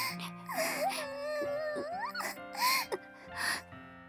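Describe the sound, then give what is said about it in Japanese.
Two people cry together, wailing and whimpering in wavering tones whose pitch sweeps up and down. Their sobs are broken by sharp gasping breaths and stay fairly loud throughout. “ほら泣かないの2人とも”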